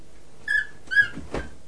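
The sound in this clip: A small child imitates a dog with a few short, squeaky yips, the last one lower and breathier, in an otherwise quiet setting.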